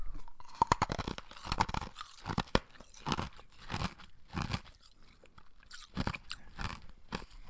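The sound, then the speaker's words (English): Ice being crunched and chewed, a pica habit: many loud, irregular crunching bites and grinding chews in uneven bursts, with short pauses between them and no talking. “That is ice. If you had to pick an addiction, did you have to pick that one? Let me just reenact it one more time so you get it better.”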